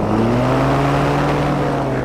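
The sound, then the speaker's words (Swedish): Aircraft engine running at full throttle before takeoff, producing a loud, continuous droning roar with strong low harmonics that edges slightly upward in pitch at the start and then holds steady. “motorn är igång med full fräs”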